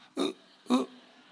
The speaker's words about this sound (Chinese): 我跟你们讲话老打嗝，对不对啊？